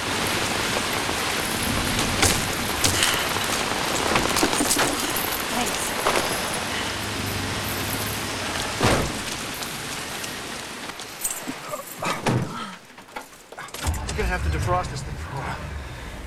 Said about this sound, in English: By the time he gets into the car, he's soaked. The rain is dripping off his nose and chin.